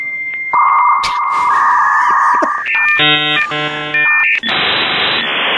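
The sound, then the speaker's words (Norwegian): A dial-up modem connects to the internet: a steady tone, then a string of loud electronic beeps and warbles, ending in a harsh, rushing static hiss. “Da har vi koblet oss til. Det var lyden av internett.”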